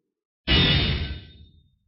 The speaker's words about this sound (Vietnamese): Đại ấn như trời nện thẳng vào cái đồng lô, phát ra tiếng như là rồng phá trường thiên, âm thanh vang vọng.